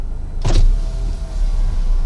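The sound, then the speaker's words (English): A car window rolls down with a short electric motor whir lasting about half a second, over a constant low rumble from the vehicle. “I pulled up to a man in a mask, gloves, and a medical gown and rolled down my window.”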